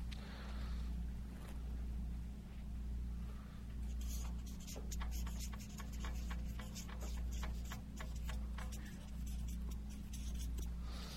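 Pen scratching on paper as someone writes by hand, with quick, dry strokes clustering in the second half over a steady low hum.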